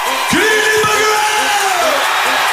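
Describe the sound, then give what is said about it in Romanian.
Stadium concert crowd in Bucharest cheering loudly, with whoops, yells and high whistles rising over a steady roar of fans. “Good Evening Bucharest a fost salutul pe care fanii l-au primit cu urale.”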